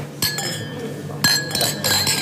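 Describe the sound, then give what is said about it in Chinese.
Glasses clink together in a celebratory toast at a dinner. A few sharp, bright chinks ring out with short ringing tails, spaced unevenly across the moment. “为了吴家的上海之行，咱们干杯。 干杯。”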